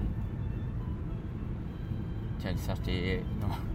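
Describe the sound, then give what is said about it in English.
Jaguar XJ8 car driving out of town in the morning, a steady low engine and road rumble that holds throughout, with a few brief higher sounds near the end. “my Jaguar, my lovely Jaguar. My XJ8, just driving out of town at”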